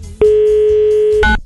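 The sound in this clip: A telephone dial tone sounds as a single steady, loud hum for about a second, then cuts off in a short burst of noise.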